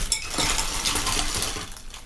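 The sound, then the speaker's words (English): Ice cubes dropped into a cocktail cup while a stirred rum and applejack cocktail is being mixed, making a dense, continuous rattle of clinks and clatter that lasts the whole short moment, with no talking. “Let me throw the ice in our cup and we'll go.”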